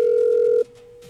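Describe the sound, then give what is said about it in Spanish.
Ringback tone of an outgoing telephone call, a steady mid-pitched electronic tone that holds for about half a second, then drops abruptly to a much fainter tone that continues to the end. “Estamos marcándole a Alexis, que dijo que lo llamáramos. Vamos a ver si nos contesta”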